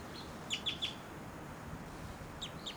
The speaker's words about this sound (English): That was a flight call error by that bird. Maybe, oh, this is the female actually.